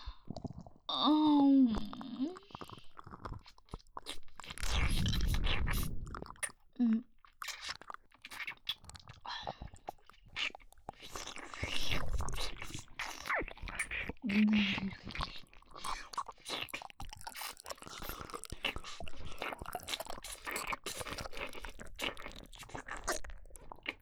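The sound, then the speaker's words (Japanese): Wet licking and chewing mouth sounds, close and continuous, with many small smacks and crunchy clicks at a steady, irregular rhythm. A soft whispered voice comes in at points. “おいしそう、舐めちゃおう。いただきます。”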